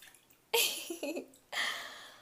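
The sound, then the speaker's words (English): Bath water splashing as someone washes in a hot bathtub, two broad sloshing bursts with a quieter drippy lull between them. “Oh, this hot bath feels so good. I really don't want to change my position right now.”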